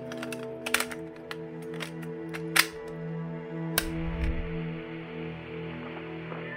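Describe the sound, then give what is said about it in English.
Cassette player play button pressed and tape starting: a few sharp mechanical clicks over a steady low motor hum, with a brief low rumble following the last loud click. “I plugged the cassette player in, Chose the tape dated December 15th, 1999. And press play.”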